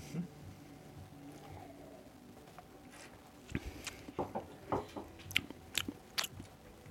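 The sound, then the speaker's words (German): Faint clicky gulps of beer from a litre Maß of Andechs monastery brewery beer: after a quiet stretch comes a quick run of many small swallowing sounds, each soft and brief. “ich müsste mal einen Schluck nehmen.”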